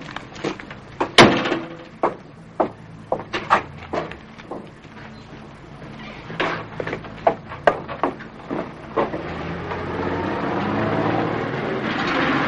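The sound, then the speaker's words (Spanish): A car pulls up at a wartime command post and an officer gets out and walks inside: a run of sharp clacks, knocks and thuds, with a low rumble swelling toward the end. “Llega un coche con el oficial SS que capturó a Roger. El oficial baja del coche y entra en el puesto de mando.”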